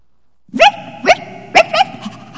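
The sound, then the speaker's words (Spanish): A small puppy found on the street gives a few high-pitched, squeaky yips in quick succession, bright and loud, each short bark separated by a brief pause. “¿Qué es eso, Chilindrina? ¿Pues qué, no tienes ojos? Es un perrito que me acabo de encontrar en la calle.”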